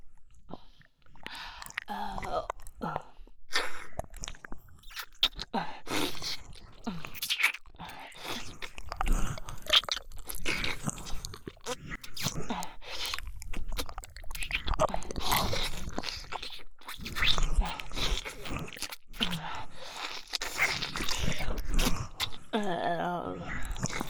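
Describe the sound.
Biting and chewing as someone tastes food: wet, crunchy mouth noises recurring irregularly for about twenty-four seconds, with quiet murmured voice sounds mixed in.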